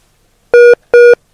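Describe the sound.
Two short telephone keypad tones sound as a number is dialed again to retry a call. Each steady beep lasts about a fifth of a second, with a brief gap between them, and nothing else is heard.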